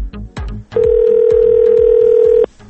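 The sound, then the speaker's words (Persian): Telephone line tones sound while a call is being placed: a few short pulses, then one loud, long, steady mid-pitched tone lasting about two seconds, followed by more pulses. “اول که زنگ زدیم این اتفاق افتاد که الان میشنوین و بعدش جواب داد.”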